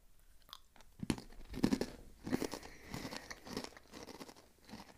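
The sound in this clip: Snacks crunching between the teeth during a snack tasting: many crisp bites and wet munching chews come in an uneven rhythm, with no talking.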